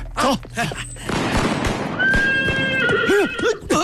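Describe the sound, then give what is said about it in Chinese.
A horse neighs loudly in a long, wavering whinny over a busy, noisy background. “马到了。”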